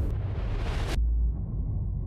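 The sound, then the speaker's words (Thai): A volcanic eruption at Sakurajima, with activity at alert level three, gives a broad, continuous rushing roar that abruptly thins partway through into a low, steady rumbling drone. “ตอนนี้เราอยู่ที่ภูเขาไฟซากุระฮิมะแล้วนะการปะทุอยู่ในระดับ3ทุกวันจะมีการปะทุออกมาตลอดเลยใกล้มากนะเนี่ย”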